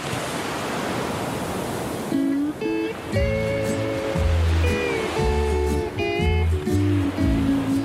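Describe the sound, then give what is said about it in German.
Gentle ocean surf rolling in on a bay at Hilo, Hawaii, on a morning with a light trade wind, a steady rushing wash with music entering after about two seconds and playing over it. “Wind und Wellen meinen es an diesem Morgen mal wieder gut mit den Surferinnen und Surfern in der Bucht von Hilo.”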